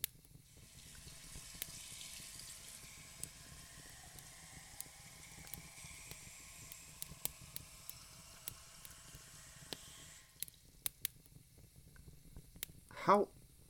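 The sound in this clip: Water runs from a sink tap to fill a glass, a steady soft hiss that carries on for about ten seconds and then cuts off, leaving near silence.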